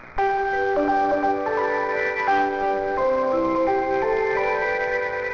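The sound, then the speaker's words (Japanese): A departure melody at Bentencho Station on the Osaka Loop Line plays an American folk tune in bright, chime-like electronic tones, a steady run of clear notes sounding continuously over faint background hiss. “弁天町駅の発車メロディーはアメリカ民謡の線路は続くやどこまでも。”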